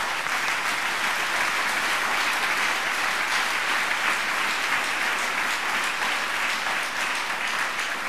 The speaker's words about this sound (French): Clap for Paul and Barnabas. Applaudissez pour Paul et Barnabas.